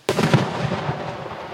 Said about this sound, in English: There's the occasional uh, round being fired